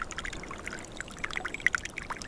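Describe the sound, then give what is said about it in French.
A thin trickle of water runs through a forest, faint and continuous, with small bright plinks and bubbling drips over a soft wash. “glisse un filet d'eau.”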